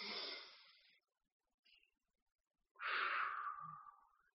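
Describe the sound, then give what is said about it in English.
Deep exhales during a breathing exercise: a soft breathy rush, a brief faint puff, then a longer, fuller outbreath that tapers off slowly. All quiet, with no speech. “And exhale again. One more time.”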